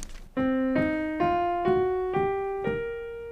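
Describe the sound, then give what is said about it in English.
A minor pentatonic scale with an added flat fifth, played alone as six ascending ringing notes, each one sustaining until the next is struck. “To the minor one, we're going to add the flat 5 from the root note, and that'll sound like this.”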